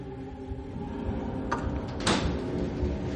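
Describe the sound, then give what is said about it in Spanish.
A door closing is heard as a couple of faint, brief knocks and rattles over a low, continuous rumble. “Se marcha. Cierra la puerta.”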